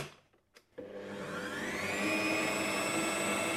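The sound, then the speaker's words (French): A kneading machine's motor mixes bread dough with 800 grams of flour. It starts after a brief quiet, whines up in pitch as it gets going, then settles into a steady, loud, droning whir. “800 grammes de farine. Après, hop, on fait pétrir un petit moment.”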